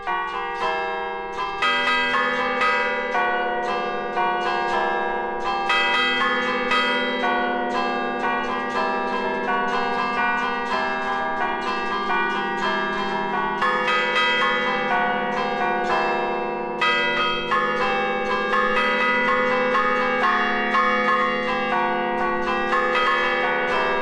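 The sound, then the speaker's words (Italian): Church bells rung in the concerto technique, several tuned bells striking in a continuous, melodic sequence of overlapping, ringing tones at an even loudness throughout, with no voices. “dove effettivamente le campane vengono ancora suonate, specialmente con la tecnica concerto”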